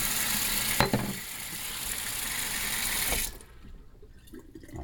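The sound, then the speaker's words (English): A kitchen sink garbage disposal runs with water: a loud, steady rushing roar with a sharp clank near the start, then it cuts out abruptly, leaving a quieter trickle. “and here comes the garbage disposal. La-di-da, singing along with the garbage disposal”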